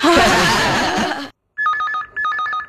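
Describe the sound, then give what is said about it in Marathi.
A mobile phone SMS alert tone sounds: a bright, repeating electronic melody in two short bursts. It follows a loud, rushing burst of noise and a brief silence. “अरे बोलत काय बसलात, SMS आहे. Message काय तो तरी बघा.”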